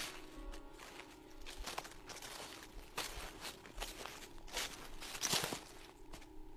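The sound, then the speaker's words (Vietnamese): Quiet footsteps rustling and crinkling over scattered paper, with many soft, irregular steps and crackles and one sharper crinkle near the end. “Sau đó lại là cái âm thanh bước chân dẫm lên giấy cứ sột soạt.”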